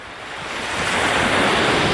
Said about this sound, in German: Die Wellen von Quiberon in der Bretagne.